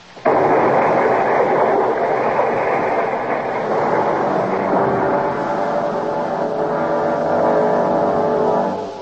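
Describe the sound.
A bottle of nitroglycerin is thrown and explodes as a radio drama effect: a sudden blast sets off a heavy, dense roar that holds steady for several seconds before cutting off.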